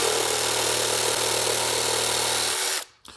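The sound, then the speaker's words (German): A power saw cuts an old wooden decking board, a loud, steady, whining motor roar that holds evenly for more than two seconds and then abruptly winds down and stops. “Wichtig ist natürlich, wenn man mit einer Maschine sägt, Schutzbrille auf, damit einem da nichts ins Auge fliegt.”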